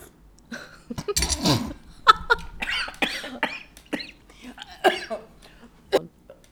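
A person choking and coughing in a series of harsh, irregular bursts, some close together, others spaced apart, with a strained throat-clearing quality and faint breathy sounds between the coughs.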